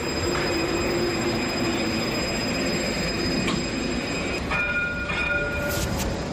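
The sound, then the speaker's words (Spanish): The Jaén tram runs its full route at night during dynamic tests, making a steady, loud rumble of rolling wheels with thin, high-pitched wheel squeal tones rising over it toward the end. “Es totalmente cierto, este sonido que se captaba anoche a eso de las 12 aproximadamente. Se trata de una fase clave en las pruebas dinámicas del sistema tranviario de Jaén”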